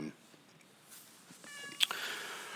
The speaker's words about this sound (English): the official cat of the Robin Mob show making an appearance.